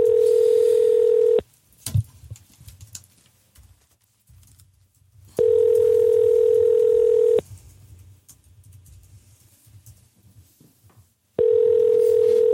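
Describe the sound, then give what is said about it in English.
A phone call rings out while waiting for an answer. The steady mid-pitched ringback tone sounds three times, each about two seconds long with roughly four-second gaps, and only faint low noise fills the pauses. “Or we may be getting a voicemail. Or Red's not answering.”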